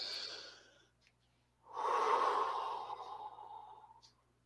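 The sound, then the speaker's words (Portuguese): A deep breath is taken during a relaxation breathing exercise. A soft breath comes first, then after a short pause a longer, louder rush of air lasts about two seconds and fades out. “aqui, respira fundo, vamos?”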